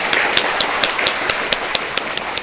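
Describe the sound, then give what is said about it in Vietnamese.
An audience at a Buddhist Dharma gathering in Indio, California applauds to welcome first-time Buddhist visitors. The clapping is dense and steady, with sharper individual claps throughout. “Chúng ta vỗ tay chào mừng các Phật tử đến đây lần đầu tiên.”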